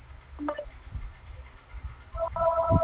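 A telephone rings with an electronic ringtone: a brief chirping tone early on, then a steadier multi-note ring toward the end, faint over a low background rumble.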